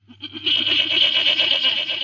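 A goat lets out one loud, quavering bleat that starts with low pulses and swells into a long, trembling cry lasting about two seconds.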